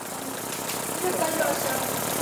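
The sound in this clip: A car engine runs as the driver gives it gas, a dense, rough mechanical rumble that holds fairly steady and grows slightly louder partway through.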